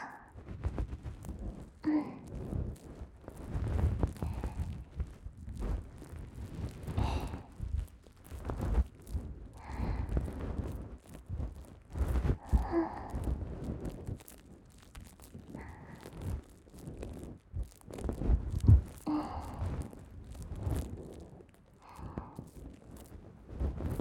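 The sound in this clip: Moisturizing cream rubbed onto the ears for ASMR, with close, soft, sticky rustling and squishing friction in uneven strokes that continue throughout at a steady, gentle level.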